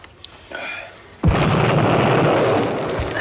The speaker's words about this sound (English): That was a big trench mortar.